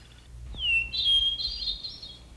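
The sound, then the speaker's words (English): A bird calls at dawn with a thin, high whistled note that slides downward, then several sustained chirping notes. The calls are fairly quiet and heard alone. “The birds woke up as the sky changed from black to light,”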